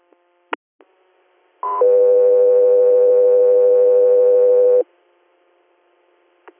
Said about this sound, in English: stand by for tones.